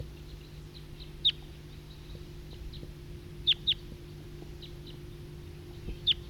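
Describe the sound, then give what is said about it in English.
A wild bird calling: a few brief, high, sharp chirps spaced irregularly over a faint, steady low hum. “Wild bird.”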